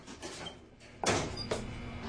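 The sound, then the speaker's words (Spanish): A vehicle door is opened, giving two brief muffled clunks about half a second apart over faint background noise. “abre la puerta de una de las unidades.”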